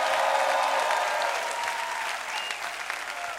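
Audience applause at a religious gathering: dense, steady clapping from a crowd fills the whole clip without a break, staying fairly loud and slowly easing off toward the end.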